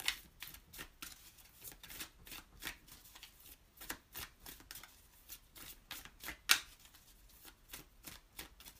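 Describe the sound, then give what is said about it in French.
Cards being shuffled and drawn during a card reading: a long, fairly quiet run of many quick papery flicks and riffles, with one sharper snap partway through and no talk. “Sortir une autre carte pour voir.”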